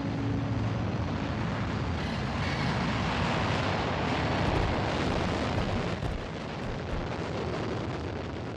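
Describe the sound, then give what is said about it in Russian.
A spacecraft module flies away from a planet with a loud, continuous rumbling roar. The dense, steady blast holds for several seconds and eases slightly near the end. “Модуль улетает с планеты.”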